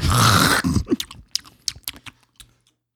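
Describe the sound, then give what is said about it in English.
Crisp crunching of a raw head of lettuce eaten during a mukbang, opening with a loud leafy burst, then many sharp, irregular bites and chews that grow sparser and quieter until silence. “today's mukbang will be a head of lettuce”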